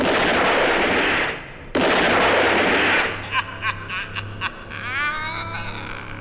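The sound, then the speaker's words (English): Several men fire their guns together as a dense, noisy burst, a short gap, then a second sustained burst, followed by a few sharper isolated cracks that thin out and fade. “Yeah, you've wasted your bullets, gentlemen.”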